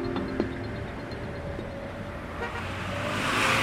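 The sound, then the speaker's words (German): City street traffic in Addis Ababa, Ethiopia: a constant rumble of cars and engines with occasional car horn toots and rising road noise toward the end. “Wir hören die Stadt, oder genauer, wir hören Addis Abeba, die Hauptstadt Äthiopiens.”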